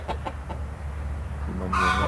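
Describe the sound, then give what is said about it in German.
Chickens cluck outside a small barn: three short clucks, then a longer, higher, more tonal call near the end, all over a low, steady rumble. “Draußen picken die Hühner.”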